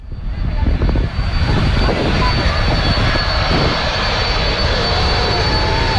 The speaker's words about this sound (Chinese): 从荷兰首都阿姆斯特丹起飞，一路向西向南，历时8个半小时，还可以降落在荷兰的领土。